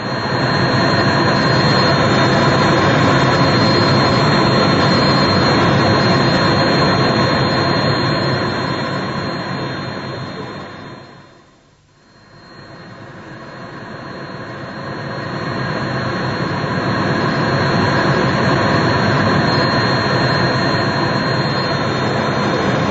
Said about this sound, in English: Just 30 minutes exactly since we took off from Kloten Airport in Zurich, from Zurich Airport